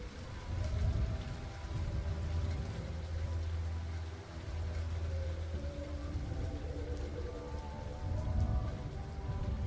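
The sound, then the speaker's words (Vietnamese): Rain falls in a steady, dense patter, a continuous wash of raindrops with soft low rumbling underneath that stays fairly even throughout, with no voices present. “Sau đó tất cả bầu trời tối đen lại, nhưng hạt mưa cũng bắt đầu tí tách rơi.”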